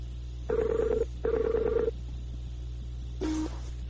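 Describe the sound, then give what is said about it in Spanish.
A Skype call rings as it connects, with two matching electronic ring bursts, a pause, then one shorter, lower tone over a steady low hum. “Entrando en llamada ahora.”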